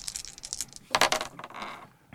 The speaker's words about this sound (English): So I'm going to give you these dice.